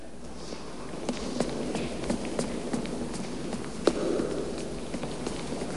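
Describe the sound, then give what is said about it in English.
Footsteps climb a broad, elegant staircase in a decorated foyer bustling with people. Many regular light taps sound over a steady background murmur. “Removing his shades, he climbs the broad, elegant staircase.”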